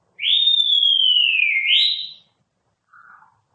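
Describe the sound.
A person whistles one long clear note that slides slowly downward, flicks back up at the end and stops, followed a moment later by a brief, soft, lower whistle.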